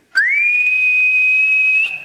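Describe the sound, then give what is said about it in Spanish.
An eerie, ghostly whistle like a spirit's, told of during a flying-saucer encounter: one loud, sustained high tone that slides quickly upward at the start, then holds steady and pure for almost two seconds, heard alone. “Ya iba a saltar el alambrado limpito cuando sintió un silbido como de ánima”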